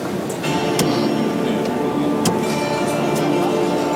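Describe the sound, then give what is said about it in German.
Rattling of the steering column adjustment in a Hyundai car gives a few sharp clicks and ticks scattered over a steady, noisy rumble. “setzte sich in das Auto, in einen Hyundai und rüttelte an der Lenkradverstellung. Vielleicht können wir ja da einfach mal reinhören.”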